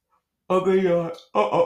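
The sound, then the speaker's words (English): A voiced yawn from a man who slept poorly the night before. A drawn-out, groaning tone is followed by a shorter second burst. “I'm yawning, didn't sleep very well yesterday.”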